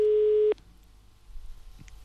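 A telephone busy signal on an unanswered call: one steady, loud, mid-pitched tone sounds alone for about half a second, then cuts off, leaving faint line noise.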